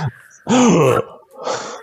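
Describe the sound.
A voice acts out a startled, voiced gasp for someone backstage eating chicken legs. A brief breathy catch comes first, then a loud wavering vocal burst, then a softer breathy exhale.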